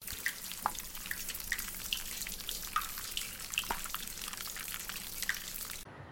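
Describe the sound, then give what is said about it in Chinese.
Water runs from a tap left on in a washroom after handwashing. It makes a steady hiss with a few sharp drip-like plinks scattered through it, then cuts off abruptly near the end. “小华回到学校，到洗手间洗手，发现他的朋友洗完手没关水喉。”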